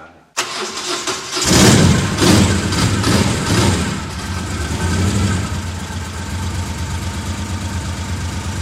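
A Moto Guzzi motorcycle engine starting: a short cranking burst, then the engine catches with a loud rumbling surge that settles into a steady, throbbing idle.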